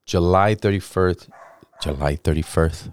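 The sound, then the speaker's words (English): A dog barks in a quick series of short, voiced yaps, bunched in two bursts with a brief pause between them. “Oh, the dog's barking now.”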